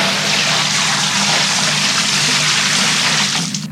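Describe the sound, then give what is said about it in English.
A bucket of liquid being emptied onto people's heads: a loud, continuous rushing splash that holds steady for nearly four seconds, then eases off at the end. “You just emptied a bucket full of liquid on our heads.”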